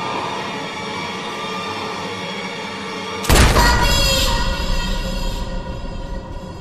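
A pistol shot in a video game: one sharp, loud crack breaks over a steady droning hum midway through, then its ringing, noisy tail slowly fades.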